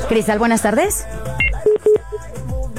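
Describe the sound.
Telephone keypad dialing tones from a phone-in contest call: a few short, sharp DTMF beeps at different pitches, coming just after a man's voice with talk continuing around them.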